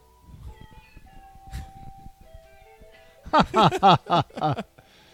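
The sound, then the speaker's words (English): A human voice imitates a cat, giving a rapid run of several loud, nasal meows, each bending up and then down in pitch, after a quieter stretch at the start. “No, but like the cat song. Oh, meow, yeah. Meow, meow. Meow, meow, meow.”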